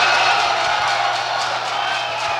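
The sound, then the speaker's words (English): Delegates yell and shout in a convention hall, a steady, dense roar of many voices in which no single voice stands out. “We would like to ask all of you to please refrain from yelling while the state chairmen are talking from the floor because they cannot possibly be heard.”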